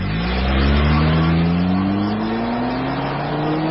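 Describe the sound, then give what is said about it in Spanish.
A car engine revs at very high rpm, loud and on its own. Its pitch climbs steadily from start to finish as the engine winds up. “Los motores trabajan a altísimas revoluciones por minuto.”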